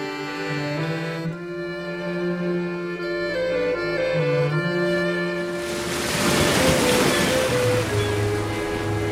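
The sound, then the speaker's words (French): Ocean waves surge on a beach in the Landes. A broad, rushing wash swells in after about five seconds and stays loud over music that plays throughout. “Attention à la vague !”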